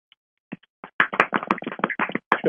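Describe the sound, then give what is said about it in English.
Sparse audience clapping greets a special guest at an evening show: a few isolated claps at first, then a ragged, uneven patter of scattered hands. “That's the sound of one hand clapping.”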